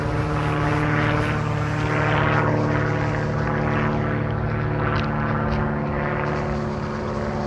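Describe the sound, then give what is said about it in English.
Airplane engine drone, likely propeller-driven, holds a steady, loud, dense roar through the whole clip with no clear rise or fall and no voices. “that's an airplane, if you can't tell.”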